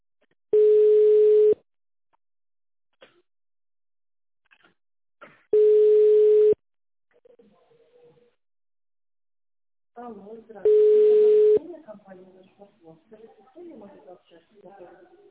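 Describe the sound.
Telephone tones sound while a call is being connected: three long, steady single-pitch beeps spaced about five seconds apart, with quiet gaps between. Voices follow the last tone.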